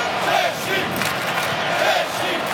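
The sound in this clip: Mexican football fans in a stadium crowd at a Mexico versus Czechia match roar and chant, a loud, sustained wall of voices with gentle surges that never drops away.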